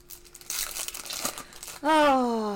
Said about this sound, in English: Apparently, I opened that pack but didn't take the cards out of it. Okay. So when I went to move the empty pack to the floor,